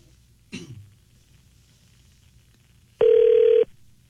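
A telephone rings after a number is dialed, heard as a single steady buzzing ring tone lasting just over half a second, with a brief cough earlier in otherwise quiet surroundings.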